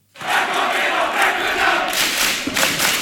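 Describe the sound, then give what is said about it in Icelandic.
KA football fans roar and cheer a 3-0 win over Þór in the Akureyri derby of Iceland's top men's league, with nearly 2000 spectators at KA's home ground. A loud, sustained crowd roar with shouting rises after a brief silence and holds throughout. “Það ætlaði hreinlega allt um koll að keyra þegar Káamenn fögnuðu 3-0 sigri á Þór í Akureyrar slag bestu deildar karla í fótbolta í gærkvöld.”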